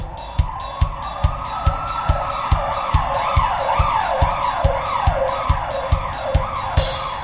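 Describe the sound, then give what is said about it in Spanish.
A fire truck siren rings out as the truck carries firefighters through an underwater tunnel: a shrill, loud wail that rises, then sweeps up and down again and again over a steady, rhythmic thumping beat. “Por el túnel subfluvial, un camión lleva bomberos. La sirena es tan chillona que despierta al tunelero.”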